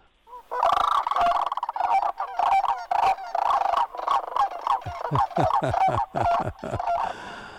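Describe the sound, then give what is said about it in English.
Sandhill cranes calling: many loud, rolling, harmonic bugling calls repeated in quick succession, overlapping into a near-continuous chorus of honking, trumpeting notes lasting several seconds. “Oh, that's a great song, a great sound that we enjoy hearing. And we hear a lot more of those sandhill cranes now”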